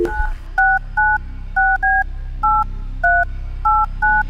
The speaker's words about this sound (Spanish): Pero mira, esto hay que volver a llamar. Vamos a llamarlo otra vez.